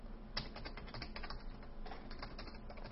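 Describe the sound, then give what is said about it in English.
Typing on a computer keyboard: a fast, dense stream of light plastic keystroke clicks, steady and fairly faint, as text is entered at a setup prompt. “it's asking for confirmation, so type it precisely as you typed it before.”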